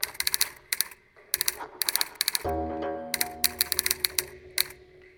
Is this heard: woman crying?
no